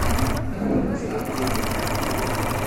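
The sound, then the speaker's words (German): A sewing machine stitches cloth squares together for picnic blankets, giving a steady, continuous mechanical whirring hum with a rapid rattling pulse throughout. “Jede Frau und jeder Mann hier an der Maschine näht 4 Tücher aneinander.”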